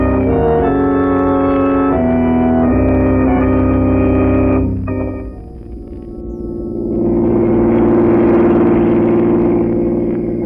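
A car engine drives along, its low hum swelling into a loud, rushing roar in the second half.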